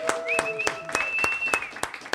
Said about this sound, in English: let's go ahead and give a big round of applause to Carlos and the Courtyard Gallery